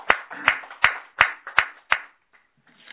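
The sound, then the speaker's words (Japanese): Six firm, evenly spaced hand claps mark a 31st birthday at a family gathering, each a crisp slap at a slow, steady pace, after which the sound drops to near silence with only faint rustles. “誕生日を迎えられましたので、盛大な拍手でお願い”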